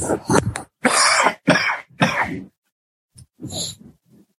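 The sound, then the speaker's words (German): Harsh throat clearing and coughing from someone with a cold, a run of rough bursts in quick succession, then a short pause and a few quieter, shorter bursts. “Jetzt muss ich mich einmal wirklich räuspern, weil die Erkältung drückt so sehr.”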